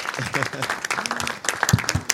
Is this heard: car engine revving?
no